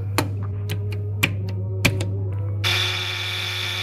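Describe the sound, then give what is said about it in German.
Push-button telephone being dialled, with a few sharp key clicks at uneven intervals, followed by a steady, bright sustained tone. “Das Tastenwahl ist schon viel gebiger und viel schneller gegenüber der Wählscheibe. Man kann einfach nur drücken.”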